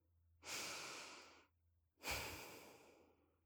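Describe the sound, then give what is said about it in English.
Deep breath taken together: a long, soft breathy inhale, a brief pause, then a fuller rushing exhale that fades out, with no talking. “Let's take one unifying breath together before we go.”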